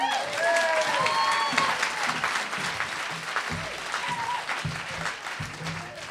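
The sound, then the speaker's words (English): Dense audience applause welcomes a comedian to the stage, a sustained wash of clapping that fills the whole stretch, with some voices and cheers mixed in. “So please give a welcome hand to Charles Cohen.”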